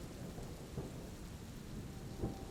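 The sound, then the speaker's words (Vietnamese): Thunder rumbles low and steady during a thunderstorm, with a constant hiss of rain on surfaces and a few deeper swells in the rumble. “mình đã tỉnh giấc từ lâu khi những tiếng sấm rền vang chợt lóe lên bầu trời.”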